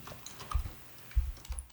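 Faint keyboard typing as someone writes a chat message on a computer keyboard: a few soft, scattered key clicks in two short clusters, with no talk.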